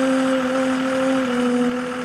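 A bus engine running inside a bus in Senegal near the Mali border: a loud, steady drone with a strong low hum, unbroken throughout and with no voices.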